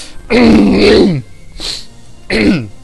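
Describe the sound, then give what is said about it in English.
A person clears something stuck in their throat with three rough, voiced bursts: a long, loud first rasp, a brief weaker one, then a shorter strong one. “Sorry, something stuck in my throat there.”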